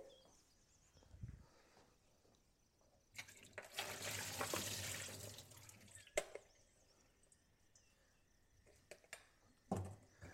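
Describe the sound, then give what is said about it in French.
Tomatoes that had been soaking in vinegar are rinsed briefly under a running tap: a faint, steady rush of water lasting a few seconds, followed by a few soft knocks and drips. “On les rince rapidement.”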